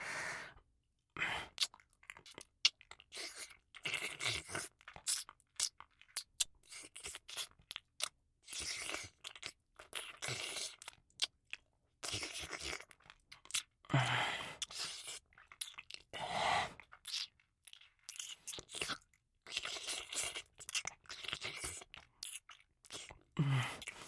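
Close, quiet chewing and crunching while eating. Many short, crackly bites and wet mouth noises come in irregular bursts for the whole length, with no speech.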